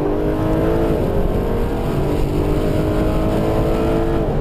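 Loud, steady engine roar of a racing car taken through a chicane at pace with its back end sliding out, a continuous droning tone that wavers slightly in pitch and holds its level throughout, with no talk.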